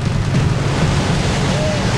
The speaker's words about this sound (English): The rapids suck Jeff in, spinning him onto his side, then his belly. He strains to keep his head above the white, foamy water.